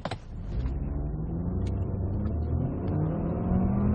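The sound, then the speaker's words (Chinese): A 2014 Ford Focus 2.0 petrol engine pulls a standing start in S mode through its dual-clutch gearbox. The engine drone swells and climbs steadily in pitch for several seconds without a break. “听到这台2.0发动机它的那种很畅快的声音，很健康的声音。然后加速的时候呢，你能感觉到双离合的变速箱那种直接的感觉。比如说，你看像我们停定，来一个静止的起步，S 档。”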